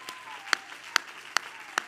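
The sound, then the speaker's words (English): Four sharp hand claps from a church audience during a service, evenly spaced in a steady rhythm, each a crisp, bright snap over a low background hush. “Oh, clap your hands, all ye people, and shout unto God with a voice of”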